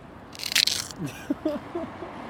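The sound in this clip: A bite into Jägermeister ice cream gives a quick, crisp burst of crunching, loud and dense for a moment, then a few softer sounds as chewing continues.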